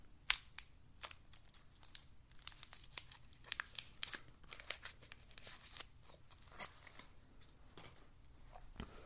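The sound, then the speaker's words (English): Crinkling and tearing of a wrapper as a sugar-free lemon mint herbal drop is unwrapped. Many quick, faint crackles and rustles come in irregular succession, with no talk. “Time for another Ricola lemon mint sugar free.”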